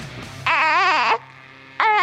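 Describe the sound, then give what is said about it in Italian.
A little girl crying in two loud, sobbing wails with a wavering, trembling pitch, separated by a short quiet pause. “se costringe una bambina a piangere per mandarlo poi alla radio. Che cos'è questa roba?”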